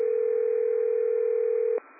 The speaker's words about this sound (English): whoever has a phone ringing, if you could star 6